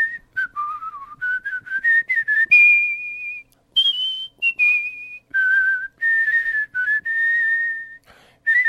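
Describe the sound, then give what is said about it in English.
Solo whistling of the American national anthem by a world champion whistler: clear, pure melodic notes moving through several phrases, some held long and steady, with short breaths between them and no other sound. “he actually won one of his world championships with the American National Anthem. Here's a little bit of that.”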